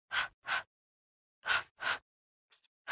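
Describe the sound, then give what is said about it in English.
Deep, forceful breaths are drawn in sharply, mostly coming in close pairs with silent gaps between them, plus one fainter breath near the end. “And a nice thing as well is remembering the breath. So at the beginning, inhale.”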